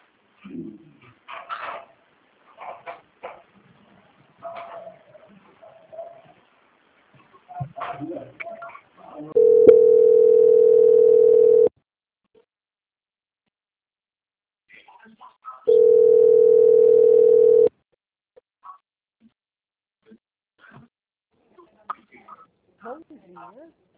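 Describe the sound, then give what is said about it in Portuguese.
A telephone hold tone plays while a call is transferred: two steady, mid-pitched tones of about two seconds each, separated by silence, with people talking before, between and after. “eu vou pedir que a senhora aguarde só mais um momento em linha. Eu vou transferir o seu contato para o controle de qualidade, que dará continuidade à sua contratação. Só um momento, por gentileza.”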